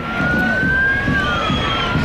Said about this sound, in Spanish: Sí, ese es el sonido de la manifestación que acababa en el arco de Moncloa.